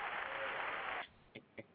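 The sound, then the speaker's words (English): Audience applause breaks out on a talk show, a quiet burst of dense clapping that lasts about a second and then cuts off abruptly, followed by two short, faint claps. “You'll have to applaud that.”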